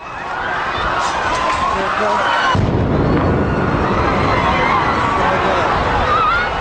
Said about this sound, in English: This is the sound of the second blast from an eyewitness video near the marathon finish line yesterday.